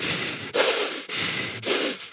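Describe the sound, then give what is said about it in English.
Four sharp, fast breaths pass in and out through the nose, each a loud, forceful hissing rush. The bursts come in an even rhythm, about half a second apart. “breathe 11 really sharp and fast breaths in and out your nose only”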